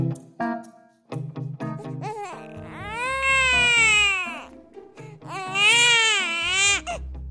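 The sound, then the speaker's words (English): A baby cries. Short fussy whimpers come first, then two long, loud, wailing cries with a strained, rising-and-falling pitch and a brief pause between them. No one speaks. “a baby's first sound is a cry”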